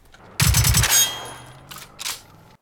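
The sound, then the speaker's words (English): Machine gun fire in a video game: a rapid burst of several sharp shots with a ringing tail, then a couple of fainter, shorter bursts after a gap. “I got a machine gun.”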